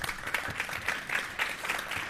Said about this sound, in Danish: Lad os byde velkommen til hele panelet, som de sidder her. Lad os give dem en hånd.